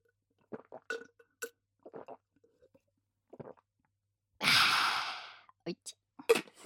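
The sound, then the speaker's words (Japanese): Close-up ASMR drinking of alcohol from a cup: a few soft sips and faint clinks, then a long, breathy exhale, followed by more small mouth clicks. “お酒を飲むシーンとかせっかくだからリアルな音を出したかったので、今回はカップを用意してます。飲みます。”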